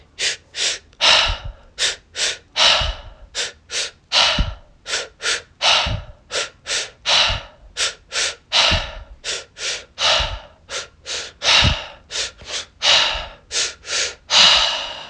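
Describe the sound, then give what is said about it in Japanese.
Rhythmic deep breathing for a Hollywood-style breathing exercise, with fingertips resting on the collarbones: a steady cycle of two quick nasal inhales and a longer exhale, repeated many times with no talking. “トントンのこの指をこうピタってこう鎖骨にくっつけてここに空気を入れるようにして今から10回スースーハーこれをやっていきますせーの”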